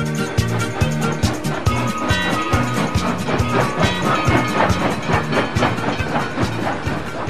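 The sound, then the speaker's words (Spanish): A train rumbles with a steady clickety-clack rhythm that repeats without a break from start to end, a dense and fairly loud rail clatter. “El tren se va, el tren se va, el tren se va.”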